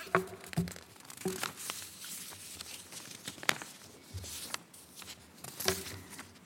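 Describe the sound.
Paper pages rustle and crinkle as someone searches for a lost last page: soft, irregular handling noises with a few sharper crackles, quiet and heard alone.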